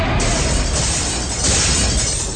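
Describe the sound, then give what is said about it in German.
Glass ceiling light tubes burst in a hallway as floor plates are torn up, a loud, dense crash of shattering and crackling noise that runs without pause for the whole moment. “Fett einen gewaltigen Machtstoß, riss Bodenplatten des Flures heraus und brachte die Leuchtröhren der Decke zum Zerplatzen.”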